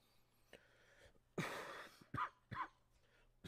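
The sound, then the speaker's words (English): A few coughs with throat clearing: a faint catch first, then one long harsh burst and two shorter, sharp coughs, alone without talk. “Sorry, I was coughing.”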